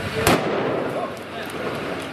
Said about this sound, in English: He shoots the Palestinian. Blood streams from his head. That was the shot that killed him.